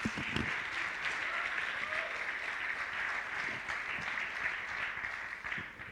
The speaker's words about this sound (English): would you guys do me a favor and give a warm welcome to Ted Willis as he makes his way to the stage?